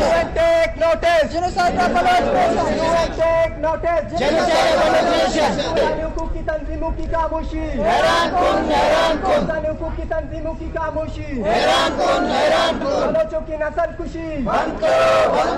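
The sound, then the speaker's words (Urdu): Protesters chant slogans at a human rights demonstration outside the press club in Quetta, with women among the crowd; loud, continuous massed voices rise in recurring rhythmic bursts of repeated phrases. “اس موقع پر مظاہرے کے شرکاء نے اپنے مطالبات کے حق میں یہ نعرے لگائے۔”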